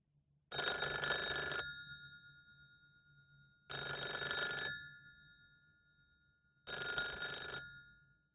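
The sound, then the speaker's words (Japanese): A telephone bell rings three times, each ring a bright metallic trill lasting about a second, evenly separated by pauses of roughly two seconds, with no talk. “何ですか？ 電話ですね。 はい、そうです。電話です。”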